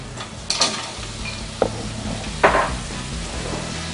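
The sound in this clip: Mussels sauté in a pan with a constant hiss of sizzling, broken by three sharp clatters of shells or a spoon being stirred.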